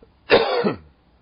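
Someone clears their throat once because food is stuck in it: a short, rough, rasping burst lasting about half a second, alone and followed by quiet.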